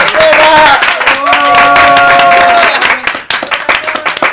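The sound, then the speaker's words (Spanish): Applause and clapping from a group welcoming an emerging band's members, with sustained tonal sounds mixed in; dense, steady clapping holds for about three seconds, then thins into scattered, uneven claps. “Y los tenemos acá. Un aplauso.”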